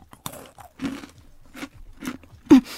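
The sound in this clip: Crunchy bites and chewing of a Kinoko no Yama snack with vanilla white chocolate flavoured like Essel Super Cup ice cream. Several sharp, separate crunches come in uneven rhythm, and the loudest bite lands near the end.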